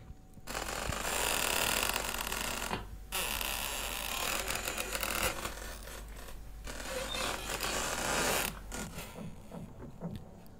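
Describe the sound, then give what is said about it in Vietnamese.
Old door hinges creak as a door slowly opens, a loud, harsh, grinding creak running in a few long stretches with short breaks between them, with no voices. “Về phần ông Ba, từ từ mở cửa bước vào trong nhà. Tiếng bản lề cũ kỹ vang lên đến giận cả người.”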